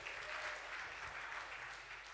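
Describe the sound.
On a Sunday morning, a church audience applauds as a speaker is welcomed up: soft, continuous clapping without a break from start to finish.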